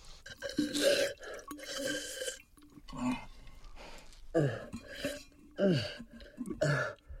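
Wet gulps and sharp breaths as a person puts their mouth around a plastic water bottle and drinks the last of the water, several irregular bursts of swallowing and gasping separated by short pauses.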